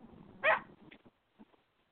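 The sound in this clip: A pit bull puppy gives one short, sharp bark, followed by a few faint, soft yips or whimpers, with no talk over them.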